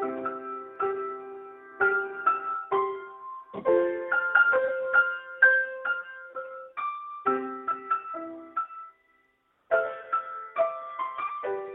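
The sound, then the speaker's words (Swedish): An old school flute of the kind played in third grade plays a Christmas tune note by note: thin, clear tones at a halting pace, with a short silence near the end before the melody resumes. “Jag tog fram en gammal flöjt som man spelar i trean, du vet, på skolan, och håller på att träna på jullåtar där då.”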